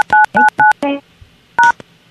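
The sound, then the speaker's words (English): Telephone keypad tones as a PIN is entered: a quick run of short beeps, a pause, then one more tone. “Please enter your PIN followed by the pound key.”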